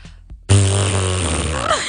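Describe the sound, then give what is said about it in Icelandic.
A long, buzzy fart noise rumbles low and sustained, performed playfully as a fart poem. It starts with a couple of brief soft blips, then swells suddenly and warbles to a close. “Já, hvernig þitt besta prumpuljóð?”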